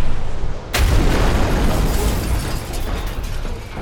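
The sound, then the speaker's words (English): A missile launches from concealed missile tubes with a sudden sharp blast, followed by a loud, sustained roaring rush that slowly eases off. “But what Tormar and I installed were some carefully concealed missile tubes.”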